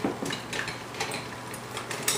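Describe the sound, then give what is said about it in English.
A metal whisk clinks lightly against a pan of cooking white sauce. A few soft, irregular taps sound over a faint, steady background hiss. “At this point, what you want to do is you wanna grab a whisk.”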